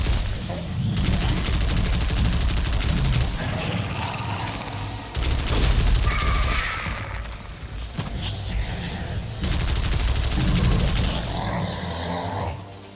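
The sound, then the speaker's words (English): Rapid gunfire from a shotgun in a video game, loud dense bursts of shots running almost without pause through the whole clip, with only brief dips in level. “I want to not use the shitty shotgun.”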